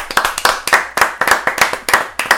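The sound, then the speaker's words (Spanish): A few people clap their hands to welcome a guest. Many sharp, loud claps come in a brisk, slightly uneven rhythm, with no talk over them. “Un aplauso.”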